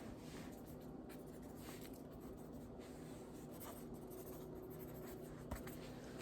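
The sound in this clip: Writing on paper in a quiet ASMR session gives a faint, continuous scratching and rubbing as the tip moves across the page. A single sharp tap sounds right at the end.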